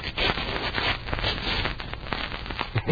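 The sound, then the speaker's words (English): Cloth ripping as bed sheets are torn in half, a continuous rasping tear that lasts about three seconds with a few rougher jerks toward the end. “Now let's rip those sheets off the bed. Okay. It's a big drop out of this window, Dick. Looks like 50 or 60 feet. Think we can make it with these sheets? Sure, sure, but we'll have to tear them in half.”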